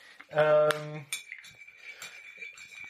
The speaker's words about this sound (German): Und was ihr gerade hört, ist tatsächlich eine Kaffeetasse.